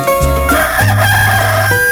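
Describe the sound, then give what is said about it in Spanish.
A rooster crows loudly in one drawn-out, harmonic call that fills most of the two seconds. Sustained steady tones sit beneath it, and there is no talking. “cuando canta el gallo”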